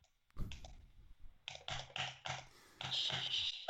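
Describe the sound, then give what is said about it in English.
A computer mouse is clicked during play of the video game Frog Fractions, with quiet, quick clicks that come in many short bursts, some faster than others. “Are you playing Frog Fractions? Two. Maybe. Click. Click more quietly, please.”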